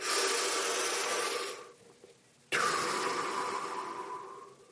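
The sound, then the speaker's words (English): Deep breathing in and out blown close into a microphone, with a long rushing breath, a brief pause, then another strong, noisy breath that slowly fades. “There's nothing like blowing into a microphone. I'm sure it sounds great as I'm recording this and thinking about that. In, out. In, out. It's aggressive breathing techniques.”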